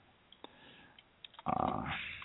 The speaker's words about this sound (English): Y'all can hear my tick, tick, tick of my typing.